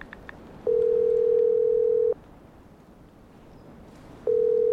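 Outgoing telephone call ringing tone: after a few faint clicks, a steady low electronic tone sounds for about a second and a half, pauses for about two seconds, then starts again at the end.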